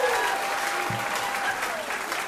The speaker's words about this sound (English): Round of applause for Jeff Cook from the great band of Alabama. Give it up for Alabama.